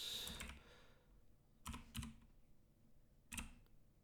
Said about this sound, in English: It's hard to type around a microphone.